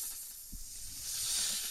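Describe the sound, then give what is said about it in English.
A snake hiss sound effect: a continuous breathy hiss that swells louder and brighter in its second half. A soft low thump sounds early on, and no one speaks over it. “That's a snake.”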